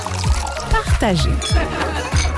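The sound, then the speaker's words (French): A ready-to-serve cocktail is shaken and poured, giving a few rhythmic sloshing, rattling bursts of liquid with a pouring trickle between them. “Avec ces trois cocktails déjà prêts à shaker, savourez ce qu'il y a de meilleur simplement et avec plaisir. Shaker, verser”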